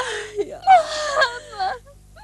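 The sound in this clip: A child cries in a few wavering, sobbing wails that rise and fall in pitch, with short breathy gaps between them. There is no talk over the crying.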